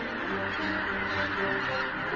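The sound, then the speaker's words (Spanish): Large flocks of geese honk while searching for food in Poland, a dense, loud and continuous chorus of overlapping calls with no break. “Inmensas bandadas de gansos en busca de alimentos llaman la atención del depredador alado más grande de toda Polonia, el pigargo europeo.”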